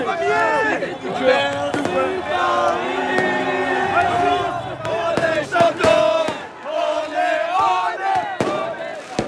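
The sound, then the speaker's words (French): Paris football supporters exult after a tense one-all match, shouting and chanting loudly as a crowd, with scattered sharp pops cutting through the constant roar of voices. “Voilà, des supporters qui exultent et on les comprend car le match a été irrespirable”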